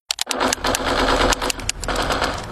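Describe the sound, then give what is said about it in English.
Video game machine-gun fire rattles in rapid, dense bursts that run almost without a break. The shots are loud and harsh from start to finish. “Chris, can you put the video game controller down for a second? I can talk and play. Oh, I'm totally annihilating this punk kid in Nebraska.”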